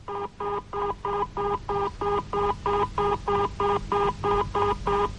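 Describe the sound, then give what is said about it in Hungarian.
Telephone dialing tones as an operator places a call to a Murray Hill number: a long, evenly spaced series of matching beeps with short gaps, steady and moderately loud, with no talking. “Azonnal megpróbálom hívni önnek, asszonyom.”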